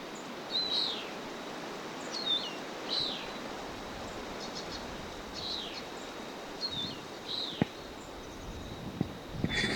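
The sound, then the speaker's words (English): A bird calls with repeated short, high chirps spaced a second or two apart, faint over a steady background hiss, with a few sharp clicks near the end. “A bird.”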